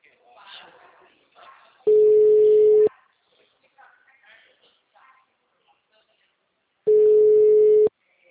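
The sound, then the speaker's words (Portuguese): Ringback tone on a phone call: two steady, even-pitched electronic tones, each lasting about a second and about five seconds apart. Faint voices murmur in the gaps between them. “Ah, chamou, chamou, chamou.”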